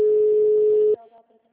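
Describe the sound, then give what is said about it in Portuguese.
As a telephone call drops, a single steady disconnect tone sounds for about a second and cuts off abruptly, leaving only faint low sounds. “na hora que ela falou lá da localização, que ela clicou em permitir, a ligação caiu.”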